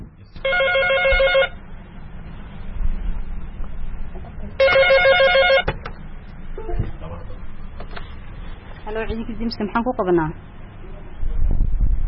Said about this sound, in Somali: sumadda ugu horreysa ee qolkan ayaa ah telefoono fara badan oo kuwa laynka ah waxaana markiiba soo dhacay intii aan qolka ku jiray mid ka mid a telefoonada